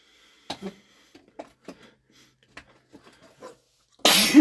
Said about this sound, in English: That. Yeah, sneezing is for fucking bitches.